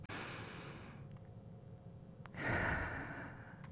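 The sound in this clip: A deep inhaled breath makes a long, airy rush of air. After a short pause a second, louder and fuller breath follows. No one talks.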